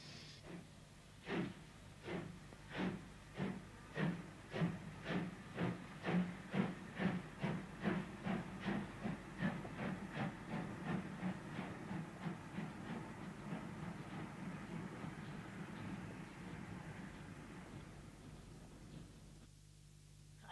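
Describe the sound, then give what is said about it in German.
Steam train moving along rails, with many regular chuffs over a continuous hiss; the beats gradually quicken and blur into a steady rushing roar before it cuts off near the end. “ich lasse den Zug sofort zurück nach Sachsen. Sofort!”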